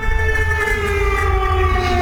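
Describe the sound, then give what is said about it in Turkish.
Air raid sirens sound in the Lublin region of Poland during a drone alert, a loud, sustained wailing tone with layered harmonics over a constant low rumble. “Lublin bölgesinde sirenler çaldı.”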